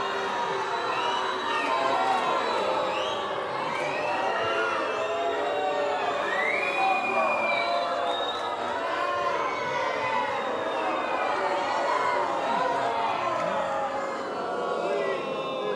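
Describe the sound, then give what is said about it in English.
A crowd cheering to welcome a coach, with continuous loud shouting and shrill whoops and whistles that hold steady throughout without a break. “I'd like to have you all put your hands together and welcome Coach Eddie.”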